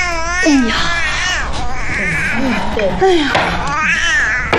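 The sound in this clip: A baby cries loudly in repeated wavering wails while being soothed by its grandmother during a tile game, the strained sobs rising and falling throughout with no break.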